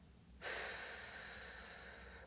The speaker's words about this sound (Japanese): ではまた吸って笑顔と背筋キープです吐きます